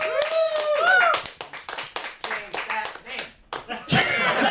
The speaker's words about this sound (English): Change that name chant going on in the audience.